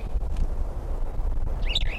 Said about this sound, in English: Two females present, evidently. Two quiet birds, one singing.